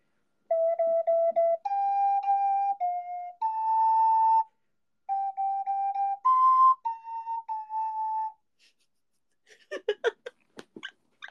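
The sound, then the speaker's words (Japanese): An ocarina plays the folk song Donna Donna, a plaintive melody of pure, sustained notes stepping up and down in phrases, after which the tune stops and a few soft breathy sounds follow. “オカリナでドナドナ吹くのおもろい。なんか悲しくなってくる。”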